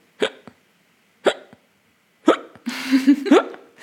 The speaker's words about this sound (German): Ja, das hört sich bei dir auch immer wie die härtesten Schluckaufs der Welt an.